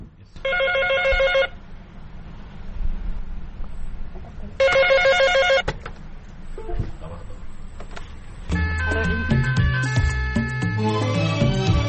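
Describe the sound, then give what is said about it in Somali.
A landline telephone rings in a room full of landline phones: two bright electronic trilling bursts, each about a second long, separated by a few seconds of quieter background. “sumadda ugu horreysa ee qolkan ayaa ah telefoono fara badan oo kuwa laynka ah waxaana markiiba soo dhacay intii aan qolka ku jiray mid ka mid a telefoonada”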